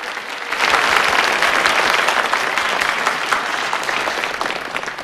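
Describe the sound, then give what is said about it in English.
Audience applause from a packed house at a stage magic show, politely greeting a trick; dense, steady clapping starts after a brief quiet moment and holds at an even level to the end. “The Crown Prince claps politely.”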